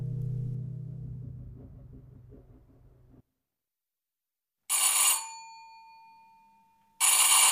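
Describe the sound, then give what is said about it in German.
A telephone ringing unanswered: after a low drone cuts off into silence, two bright, loud rings sound, each trailing off, with a pause between them. “Meine Auftraggeberin ging nicht ans Telefon und niemand öffnete an ihrer Tür.”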